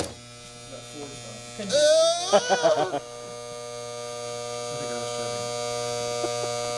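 Electric hair clippers buzz during a haircut with a steady, low electric hum throughout, broken early on by a short, loud vocal outburst.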